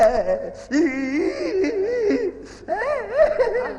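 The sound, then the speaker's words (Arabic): A man cries loudly in an Egyptian radio drama scene, a continuous quavering wail and moan with wavering pitch and breathy catches, swelling again near the end. “بقولك عيط. مش عيط قوي. اسمع سهام جاي. عيط قوي قوي. عيط.”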